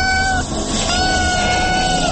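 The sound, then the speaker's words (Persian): A kitten meows in drawn-out, fairly high cries, two long calls heard over a dense, steady, noisy background. “شیطان به شکل یک بچه گربه به خانه می آید”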